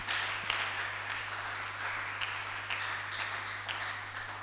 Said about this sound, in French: Acclamez pour les frères. Acclamez maintenant pour le Seigneur.